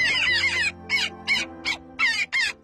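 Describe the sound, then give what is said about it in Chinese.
Harsh calls of a Daurian jackdaw in a green urban park in Beijing, a rapid series of loud, scratchy, repeated caws with short gaps between them. “我们达乌里寒鸦现在又飞了回来”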